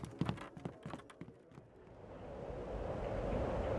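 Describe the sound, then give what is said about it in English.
Wind rattles through a garret room with a leaking roof and loose panes. A few scattered rattling knocks come first, then a rushing, hissing roar swells steadily louder and more continuous toward the end. “The wind rattled through the garret room, which had no bed and only a bit of raw gnawed fabric for warmth.”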